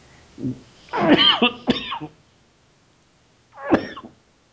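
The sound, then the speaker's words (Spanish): Coughing from a person having a coughing fit: a short cough, then a rough cluster of harsh coughs, and after a pause one more cough, with no talk alongside. “Ya mejor no lo digo porque ya me dio tos otra vez.”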